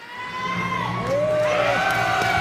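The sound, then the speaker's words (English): Students cheer as school officials cut a red ribbon on the first day of class at a new French-language elementary school in Stittsville, Ottawa. A sustained crowd roar grows slightly louder, with high shouts and whoops rising above it. “Cheers erupt as school officials cut a bright red ribbon in half, marking the first day of class at Cassiope Elementary School.”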